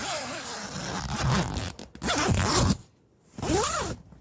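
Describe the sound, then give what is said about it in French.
Tent zipper being opened, heard alone: a long rasping zip stroke, a second shorter stroke, a brief quiet pause, then a third stroke. “Une ouverture de tente. Oh, je crois que c'est ça, tout à fait.”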